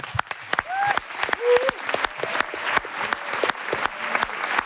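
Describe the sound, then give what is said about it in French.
A live show audience of several hundred in Marseille gives a loud ovation: dense, sustained clapping from many hands that continues steadily throughout. “Dans le doute, faites quand même une ovation à notre chroniqueur, Amzian.”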